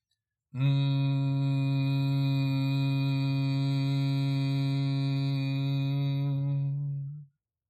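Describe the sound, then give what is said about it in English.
A voice hums a prolonged, low, buzzy M sound on the mantra M, like a bull. The hum holds one steady pitch for about seven seconds before fading out, with no other sound around it. “It is prolonged like a hum or like a bull. It sounds like this.”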